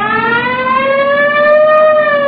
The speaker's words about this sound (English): Siren? Yeah. I got the light.